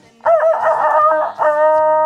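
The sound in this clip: A rooster crows once in a long, loud, harmonic call with a brief dip partway through, heard alone during a bingo number call.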